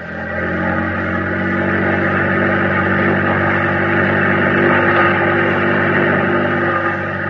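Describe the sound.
A boat engine runs at full throttle on a wartime night patrol, a loud, steady droning roar that holds a constant pitch throughout with no talk.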